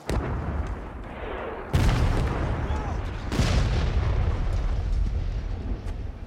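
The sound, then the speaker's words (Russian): Two heavy bomb blasts erupt near railway tracks in a war film, each a sudden deep boom followed by a long rumbling roar. The second blast comes a couple of seconds after the first, over an already rumbling background. “Родригес бросает фаер и бежит вдоль путей. Неподалеку взрывается бомба.”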